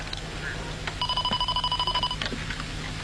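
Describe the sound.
An electronic telephone ring: a rapidly pulsing, warbling high tone lasting just over a second, heard above a low steady background.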